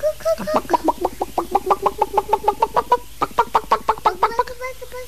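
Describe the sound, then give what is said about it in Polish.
A voice imitates chickens and roosters with a long run of rhythmic clucks. The clucks are short and evenly paced, many in quick succession, at a steady moderate loudness. “Pamiętasz kury i kurczaki i koguty? Tak. Różne rodzaje? Tak.”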